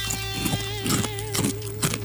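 Loud crunching of sugar-frosted cereal chewed with exaggerated effort: a few rhythmic, crisp crunch bursts rise over a steady tonal hum.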